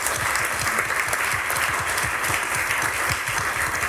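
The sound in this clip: Audience applause at a talk, a dense, even patter of many hands clapping that stays loud and steady throughout, with no voices standing out.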